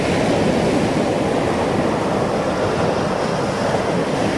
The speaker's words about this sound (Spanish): Escuchá, pero este es el sonido de la playa.